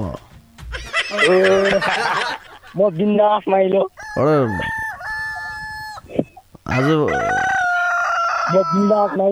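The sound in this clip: Rooster crowing, apparently imitated by human voices in a comedic exchange about roosters. Several loud, drawn-out crow-like calls rise and fall, mixed with talking and chuckling.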